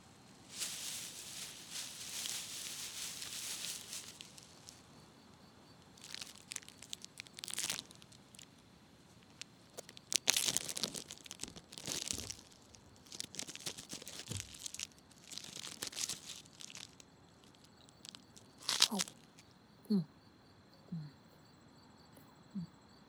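A crunchy chocolate protein bar is unwrapped and eaten: a wrapper crinkles and tears at first, then scattered crisp bites and rustles follow, all faint and with no talk.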